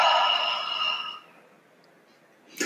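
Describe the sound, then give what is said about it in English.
A deep, breathy exhale during a guided relaxation breathing exercise fades out over about a second. A quiet pause follows, then the rush of the next breath begins. “Expand your belly and just breathe it all out. Allow your eyes to close. Take another deep breath.”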